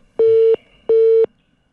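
Telephone busy tone sounds after the other party hung up: two steady, mid-pitched electronic beeps of equal length separated by a short silence, alone and fairly loud.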